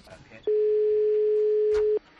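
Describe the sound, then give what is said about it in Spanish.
A telephone ringing tone sounds on a call placed to a Spanish rail operator: one steady, mid-pitched tone held for about a second and a half, clean and unbroken. “Venga, vamos a llamar a Renfe, venga.”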